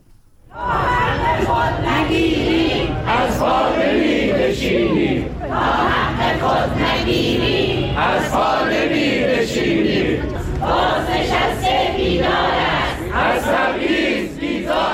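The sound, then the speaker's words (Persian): A group of protesters in Kermanshah chanting slogans, a loud, dense mass of voices shouting in rhythmic bursts that continues without a break from start to end. “این صدای گروهی از معترضان در کرمانشاه است.”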